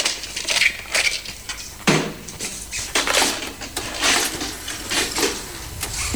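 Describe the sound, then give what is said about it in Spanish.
A videotape is handled and pushed into a video player, giving plastic clatter and several sharp mechanical clicks and knocks in an irregular run. “Ángela entra en el salón y pone en el vídeo la cinta que cogió en la sala de proyección.”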